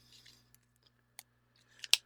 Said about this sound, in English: I heard a click there and a click here. Here a click, there a click, everywhere a click, click.